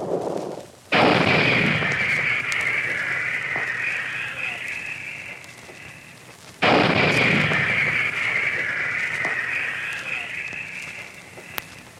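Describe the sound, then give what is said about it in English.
155 mm artillery guns fire during fighting in Korea: two loud, booming blasts about six seconds apart, each followed by a long, rumbling roar that slowly fades away. “Behind all this, the big guns, the 155s, pounded away at enemy positions.”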